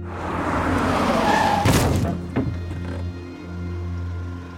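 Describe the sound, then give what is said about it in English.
A car brakes hard and strikes a man. A rushing screech of tires over engine drone leads into a heavy impact thud midway, then a smaller second knock, with the engine humming on afterward. “Although Hannah tried to stop, she couldn't. She hit the man.”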